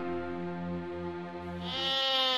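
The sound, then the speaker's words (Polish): Goat bleating at a dairy goat farm in Skoraszewice, Greater Poland: one long, sustained, wavering bleat with rich harmonics that grows louder and brighter toward the end, with no voices. “W Pacanowie kozy kują, a w wielkopolskich Skoraszewicach kozy doją. Tak powinna zaczynać się współczesna opowieść o tych sympatycznych zwierzętach.”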